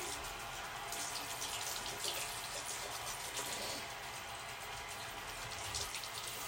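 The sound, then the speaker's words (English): Water runs from a tap while someone washes their face, a steady, even hiss of flowing water that continues unchanged throughout with no voices. “let me wash my face real quick”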